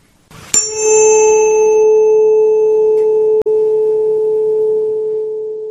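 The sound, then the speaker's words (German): A pure sine tone on the note A at concert pitch begins with a short click, then holds steady and loud for about five seconds, with one brief dropout before it fades slightly at the end. “Der nächste Ton ist der Ton A mit einer Frequenz von 440 Hertz.”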